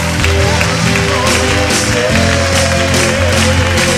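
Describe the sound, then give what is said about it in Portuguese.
Loud, sustained applause fills a church conference, a dense, steady wash of clapping with continuous low tones running beneath it. “Vamos dar um grande aplauso para o Rei dos Reis.”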